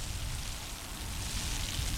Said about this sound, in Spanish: la lluvia es copiosa en este punto donde tú te encuentras, que es Jesús Valdés Sánchez y Enrique Musa.